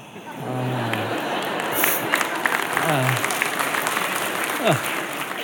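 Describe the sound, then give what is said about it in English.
Audience applause at a live comedy show, a sustained, dense clatter of many hands clapping, with scattered voices and cheers rising through it. “you clap for that, but you're okay with cancer, huh?”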